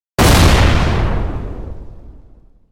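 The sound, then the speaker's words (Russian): A single loud explosion bursts in a room with a sharp, sudden onset. A deep, rumbling roar then fades gradually over about two seconds, alone with no voices. “Грохнул взрыв.”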